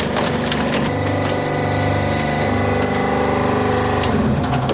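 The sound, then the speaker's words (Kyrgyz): A press compacting recyclable waste at up to 8 tons gives a loud, continuous mechanical grinding and creaking roar over a low hum, steady throughout with no pauses. “Бул пресстин басышы 8 тоннага чейин басат экен муну. Кеттик кысымда. Азыр биздин басканыбыз да азыр 8 тоннаны басып атат”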